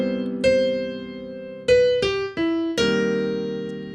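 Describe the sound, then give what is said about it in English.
Solo jazz piano with root-position chords in the left hand and a single-note melody in the right, five sparse strikes that ring and decay with open space between them, moderately loud, with no voices. “was playing jazz tunes in a solo piano way with root position chords in my left hand and single note melody nines in my right hand, which sounds like this.”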